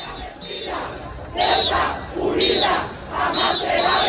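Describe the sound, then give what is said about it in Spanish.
A crowd chants at a peaceful residents' protest march in Ceuta, with many voices shouting together in repeated rhythmic phrases that surge loudly and then ease between bursts. “Este era el sonido de esa marcha, que discurrió de forma pacífica y escoltada por agentes de la Policía Nacional por las principales arterias de Ceuta”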